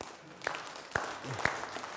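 An audience claps to welcome a volunteer onto a stage, a soft, steady wash of clapping with a few sharper claps landing at even intervals.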